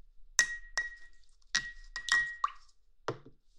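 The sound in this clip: A glass jar of formalin being handled, giving several sharp clinks and knocks with a bright ringing tone that lingers after some hits. The knocks are faint and spaced irregularly.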